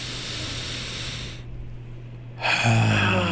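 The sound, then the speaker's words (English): Deep breath drawn in through the nose during a guided breathing exercise: a long, steady hissing inhale, then a short near-silent pause and a louder rushing breath sound at the end. “So let's get these three deep breaths in us in 3, 2, 1, all the way in through the nose.”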